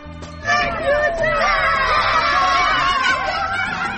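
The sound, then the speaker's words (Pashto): Children shout and laugh while playing in snow after a snowfall in Maidan Wardak province. Their high, excited voices overlap in a loud, continuous babble with scattered squeals. “دا د هغو ماشومانو غږ و چې په دې ولایت کې د واورې ورېدو وروسته په واوره کې لوبې کولې.”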